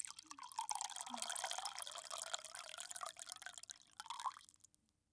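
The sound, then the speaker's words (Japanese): Hot water is poured in a faint, steady stream that runs for several seconds before tapering off and stopping. “お湯を入れて、”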